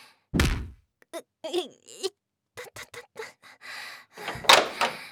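A door being opened: a heavy thunk, then a run of short clicks and squeaky scraping, ending in a louder rattling burst. No one speaks.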